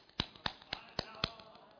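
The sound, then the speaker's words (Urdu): Five sharp, evenly spaced hand claps, each made by striking the right palm against the back of the left hand. They are fairly soft, with no talk. “جس کو تفسیخ کہتے ہیں، تالی بجانا ایسے۔”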